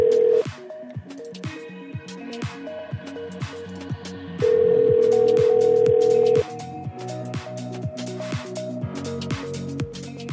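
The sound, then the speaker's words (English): Telephone tones as a call dials through to voicemail: a rhythmic run of short electronic beeps. One long steady tone lasts about two seconds midway, then the pattern of beeps resumes. “I was trying to get her voicemail.”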